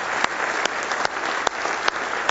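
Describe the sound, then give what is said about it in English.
A church audience applauds with hand claps of praise during a morning worship service. Steady, dense clapping carries throughout, with a few sharper claps standing out above it. “Now let's give him a big hand clap of praise if we love him with all of our heart this morning.”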